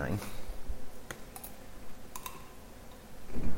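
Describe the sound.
Computer mouse clicks, a few sharp, quiet clicks spaced apart, with low voices talking at the start and end.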